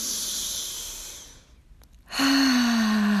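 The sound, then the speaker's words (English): Deep, slow breathing in a relaxation exercise: a long airy breath, a short pause, then a loud voiced sigh out through the mouth, its pitch sinking gently as it trails off. “On your first breath, please take it in through your nose and out through your mouth, and on the out breath, please make a sound.”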